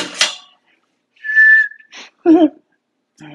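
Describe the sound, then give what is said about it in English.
Someone without dentures whistles through the gap in their teeth, making one short, steady high tone set among breathy hisses and a brief voiced puff. “I do a lot of whistling when I don't have my teeth in.”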